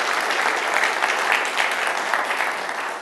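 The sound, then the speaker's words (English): Audience applause fills a room at a church gathering: a steady, dense wash of clapping that holds an even loudness throughout, with no voices standing out. “Just give yourselves a round of applause for showing up tonight.”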